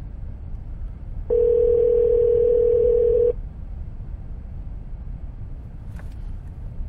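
A steady telephone tone sounds for about two seconds over a low hiss and then stops, heard while a call is placed to a government public hearing office.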